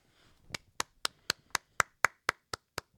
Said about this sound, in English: I clap it up for Janet Jackson's titty